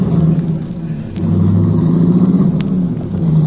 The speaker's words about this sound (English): This is my car, Ace. I'll get the back. I gotta lie down. I better get you to a doctor, Cliff. No. Just drive me around while we talk.